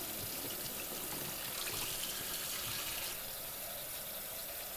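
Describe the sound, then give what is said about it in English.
Running tap water pours steadily over a dish being washed. The splashing rush is continuous and fairly loud, with no pauses. “Notice how water runs around or through or over it. Notice breath by breath how the dish gets just a little bit cleaner.”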